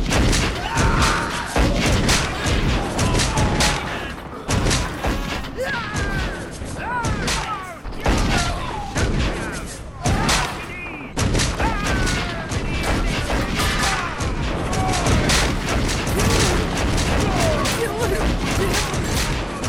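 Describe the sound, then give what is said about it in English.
Musket fire from soldiers in a ship's topsails shooting at boarding pirates: many dense thuds, booms and cracks pile up continuously, loud and busy, mixed with voices throughout. “And from its topsails, the Indian soldiers begin shooting the ever-living flip out of Captain Tew's boarding parties.”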